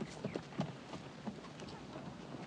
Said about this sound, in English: Matt turns his horse and rides off, leading Rusty.